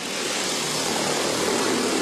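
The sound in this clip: A logistics delivery drone in flight, giving a loud, continuous whirring propeller drone with a broad hissing wash. The level stays steady from start to finish, with no voices.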